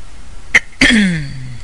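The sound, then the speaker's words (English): Someone clears their throat with a short sharp catch, then a louder rasping burst that trails off into a falling voiced tone. “Clear my throat there.”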